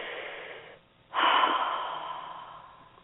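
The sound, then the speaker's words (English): Slow, deep breathing for relaxation: a soft, airy breath, a short quiet pause, then a fuller, louder breath that gradually fades away. The breaths are unhurried and smooth, with no voices. “Very quietly, really. Very simply. Just taking deeper breaths like that.”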